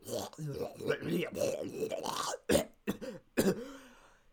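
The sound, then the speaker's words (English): A man talks, then clears his throat in a few harsh, raspy bursts with short pauses between them. “I think it's finally time I cleared my throat, though.”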